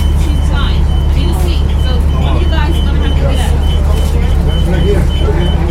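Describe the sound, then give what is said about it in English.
A steady, loud low rumble of engine and road noise fills the interior of a moving city bus on a commute, while passengers' voices talk over it. “we went on Melissa's commute, and we experienced a very interesting situation while on the bus”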